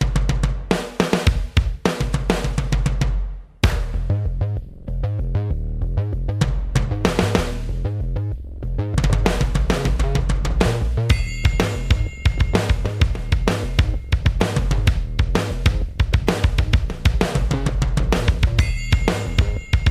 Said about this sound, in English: He just basically turned on the multipad and just started playing. So what you're hearing are sounds that come with the unit, and he's playing it all live.